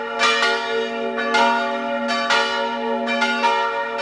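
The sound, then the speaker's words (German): Midday church bells ringing in Salzburg, several bells striking in an irregular, overlapping pattern over a steady sustained hum, loud and without voices. “Das hier sind die heutigen Mittagsglocken.”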